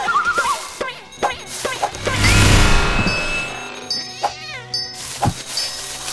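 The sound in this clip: Cartoonish cat meows from a video game, mixed with whinny-like horse calls and bright effect tones over busy, continuous game music.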